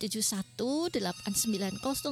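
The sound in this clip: A telephone ringtone sounds for an incoming call on a call-in line: a fast, warbling electronic melody of repeated gliding tones plays continuously and fairly loudly.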